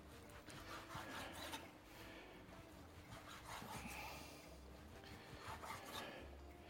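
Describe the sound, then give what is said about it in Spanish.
Faint rasping knife strokes cutting food into small pieces, several gritty scraping cuts repeating unevenly, with no talk. “lo que voy a hacer va a ser cortar trocitos más pequeños, así.”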